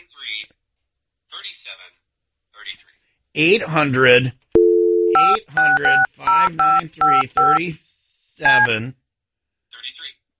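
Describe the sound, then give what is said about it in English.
A touch-tone phone number is dialed: a short steady tone, then a quick run of several crisp, evenly spaced dual-pitch beeps, with people talking before and after. “Are you sure you're dialing the correct number?”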